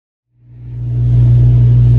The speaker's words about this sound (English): So now we're driving there.